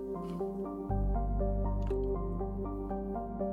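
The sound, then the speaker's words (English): A video game plays a water-dripping effect in a murky corner of a galaxy map: soft, regularly spaced tonal drips repeat many times at a steady rhythm over a low hum that swells in early, all fairly faint. “I never noticed that there's sort of a water effect in here. That's interesting.”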